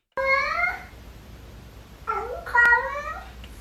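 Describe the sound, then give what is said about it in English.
A cat meows in a way that sounds like a voice saying "hello": one clear, tonal meow, then a pause, then a longer two-part meow. The cries are bright and harmonic, heard alone over faint background hiss. “going viral because it really does sound like this cat says hello.”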